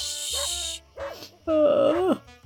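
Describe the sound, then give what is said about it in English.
A dog barks and yips in three short, pitch-bending calls after a brief hiss; the last call is the longest and loudest. “Who's barking? That's annoying.”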